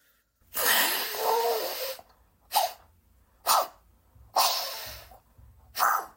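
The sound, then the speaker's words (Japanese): Nose blowing into a soft tissue: five breathy, honking bursts. The first is long and the rest are shorter, with brief quiet gaps between them. “このティッシュで鼻をかむと鼻水が世界のどこかのティッシュに転送されるん”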